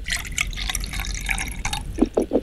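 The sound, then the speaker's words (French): Liquid glugging out of a bottle as it is emptied, a few low gurgles near the end over a noisy background. “Ça coule, là? Oui, il n'y en a plus, ça y est, j'ai vidé la bouteille.”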